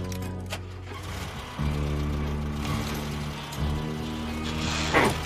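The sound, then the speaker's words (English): A car engine revs while the rear wheels spin, a steady mechanical drone that surges louder twice in stepped rises. “revs the engine and the rear wheels spin.”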